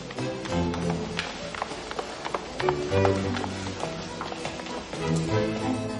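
Footsteps of two women descending a stone staircase, heard as irregular hard taps and knocks over a dense, sustained tonal background.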